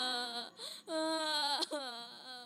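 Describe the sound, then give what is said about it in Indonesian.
A child cries in a few loud, high-pitched wailing bursts separated by brief catches of breath. “Lihat, ada yang menangis juga.”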